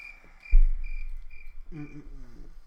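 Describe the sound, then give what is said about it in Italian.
Crickets chirping below a slaughterhouse: a steady, high-pitched chirping in regular short pulses that carries through the whole clip, with a low thump near the start. “Ed è lì che sentiamo i grilli di giù.”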